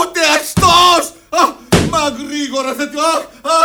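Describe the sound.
Blows landing on someone in a radio play: a couple of sharp, loud smacking impacts break in among agitated, raised voices that keep talking around them.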